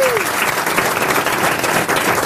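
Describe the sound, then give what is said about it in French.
Studio audience applause greeting a phone-in caller: dense, steady clapping that holds at an even loudness for the whole stretch, with a brief falling tone at the very start. “À mes côtés, j'ai Michel Boujna, les grosses têtes, le public qui vous acclame déjà.”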